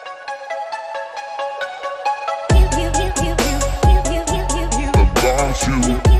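A Polish public radio station jingle opens with a bright, repeating chime-like melody. A heavy, pulsing bass beat joins halfway, and the music stays loud throughout with no talk.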